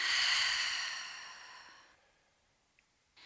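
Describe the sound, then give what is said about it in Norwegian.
A single long breathy rush of air from a deep breath in a guided breathing exercise, loud at first and fading away over about two seconds, followed by near silence. “kan du bare starte opp her med å ta et dypt innpust og et utpust ut gjennom munnen.”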